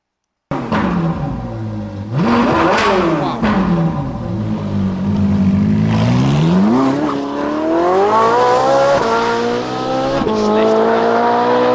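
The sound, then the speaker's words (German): Powerful sports car engine of roughly 500 to 600 horsepower, Ferrari- or Lamborghini-like, starting abruptly and revving loudly with a quick rise and fall in pitch, then a long climbing roar that holds at a high, sustained pitch. “Das klingt so, klingt nach Ferrari oder Lamborghini.”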